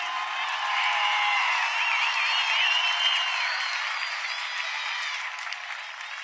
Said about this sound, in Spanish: ¡Los aplausos!